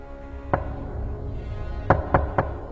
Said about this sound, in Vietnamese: Tôi vẫn không nhận được câu trả lời ngoài những tiếng gõ cửa chua chát.